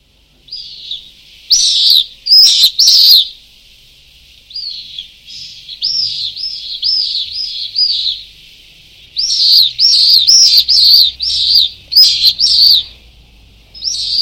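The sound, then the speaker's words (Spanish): Pallid swifts calling from a colony nesting at a fire station in Zaragoza: loud, shrill high screams in repeated bursts, some runs of quick overlapping calls, broken by short pauses, with no voices. “Ahora continuamos hablando de aves, estábamos escuchando unos vencejos pálidos”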